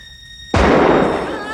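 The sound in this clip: A single gunshot fired toward attackers at a gate in darkness: one sudden, loud blast with a long, decaying rumble, following a faint, steady tone.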